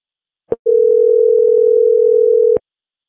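A telephone call tone to a novelty phone shaped like a rear end: a brief click, then one loud, steady, mid-pitched tone lasting about two seconds that cuts off with another click.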